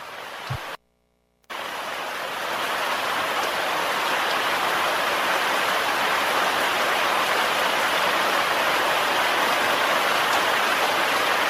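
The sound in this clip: Rain falls in a steady, dense hiss that stays loud and even throughout, broken only by a brief dropout to silence near the start.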